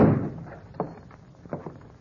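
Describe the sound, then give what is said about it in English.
Wooden door shoved open, heard as a low scraping rumble at the start followed by a few short, sharp knocks. No one speaks. “If you want in, just shove the door.”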